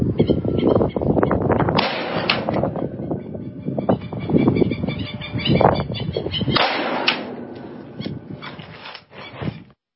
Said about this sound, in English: Shooting an AR-15 5.56. This is going to be our damage test on an ear. We're going to try to graze it and see what we can do.